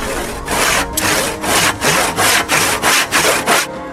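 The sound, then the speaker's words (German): An ice cutter's saw rasps through ice in many steady back-and-forth strokes, each a loud, gritty burst with brief gaps between them in an even rhythm. “Der Eisschneider sägt Eis.”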